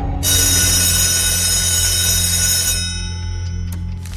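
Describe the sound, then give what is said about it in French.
A clock's bell chime marks midnight, a loud, sustained ringing tone that holds steady for over two seconds before fading, followed by a few faint ticks. “Notre échec, chaque jour, se confirmait aux 12 coups de minuit. Tic. Tac. Tic.”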